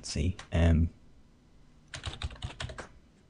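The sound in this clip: Typing on a computer keyboard to enter part of a name into a contact search: a short voiced sound comes first, then a quick, irregular run of many sharp key clicks fills the second half before stopping.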